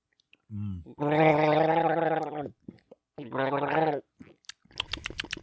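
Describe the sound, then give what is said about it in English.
A person gargles a mouthful of hoppy beer: a short voiced burble, then two long, loud bubbling gargles with a pause between them, followed by a few faint clicks. “Very nice gargle job.”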